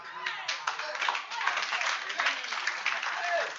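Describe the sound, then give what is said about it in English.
Hands clapping during a church service, the claps quick and dense in a steady run throughout, with voices sounding over them. “Are you clapping your hands for Jesus?”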